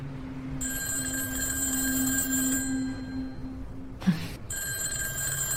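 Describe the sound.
A telephone rings with a steady, high electronic trill. A soft thump briefly cuts into the ringing before it resumes, and no one speaks.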